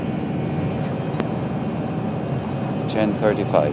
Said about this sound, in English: We're taking off. This is the sound of the aeroplane leaving Lourdes.